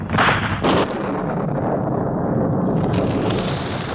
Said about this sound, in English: An instant later, a rifle bullet found its mark in a keg of high-explosive powder.